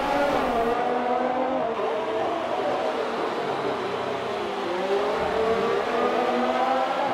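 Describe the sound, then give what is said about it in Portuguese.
Race car engines as a Ferrari closes in on a Mercedes during a race: a loud, sustained mechanical whine with layered engine tones whose pitch shifts as the cars run close together, with no talk over it. “Olha como a Ferrari vem chegando para cima ali. Da Mercedes do Freitas.”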